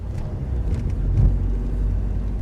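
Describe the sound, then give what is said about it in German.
A car drives through London's port with its modern infrastructure, giving a steady low engine rumble that swells slightly near the middle and then holds even to the end. “Diakon Hille fährt durch den Londoner Hafen mit seiner modernen Infrastruktur.”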